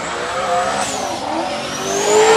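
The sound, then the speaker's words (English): A 1969 Camaro with a turbocharged engine revving: a loud, continuous engine roar with shifting pitch that swells toward the end. “That's a little different sound. Wow. It's 69, I think it's 69 Camaro running a turbo.”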